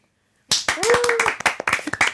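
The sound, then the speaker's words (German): Audience applause breaks out after a live rock song performance, dense hand clapping starting abruptly after a half-second of silence, with a short sustained vocal cry rising above the claps. “Das ist schon der zweite Applaus. Ich glaube, so viel Applaus hatten wir hier bei Mikado noch nie.”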